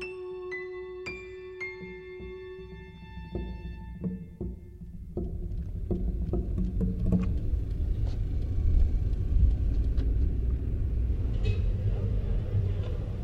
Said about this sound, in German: Fahrt über die Landstraße 20 Kilometer stadtauswärts in östlicher Richtung. Frank Mugisha fährt einen schnellen Toyota mit getönten Scheiben.